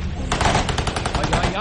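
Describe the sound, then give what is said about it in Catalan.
Rapid automatic gunfire rattles in an exchange of shots at a defensive barricade: dense, continuous bursts of sharp cracks overlapping into a loud, harsh rattle that runs throughout. “Hi ha intercanvi de trets”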